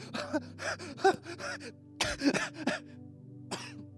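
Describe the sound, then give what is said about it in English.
Heavy panting from someone out of breath after running in place: many rasping gasps and huffs, some voiced, come in uneven bursts over a faint steady hum. “That was too much. I need to work out. I literally ran in place for 4 seconds. I'm going to pass out.”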